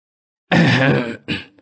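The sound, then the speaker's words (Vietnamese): A man clears his throat before a village gathering: one loud, rasping burst, then a shorter second rasp trailing off into quiet. “Thấy mọi người đã đông đủ, thầy hắng giọng.”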